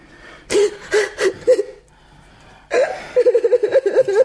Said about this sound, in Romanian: De ce plângi? De ce plângi?